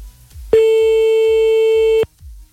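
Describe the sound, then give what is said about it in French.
A telephone line tone on a call that goes unanswered: a single steady, loud, buzzy tone lasting about a second and a half, with faint low rhythmic pulses before and after it. “Allez hop, c'est parti, on y va, on appelle maintenant.”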